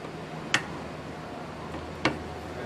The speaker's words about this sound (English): It's a good sound. That means the screw is in.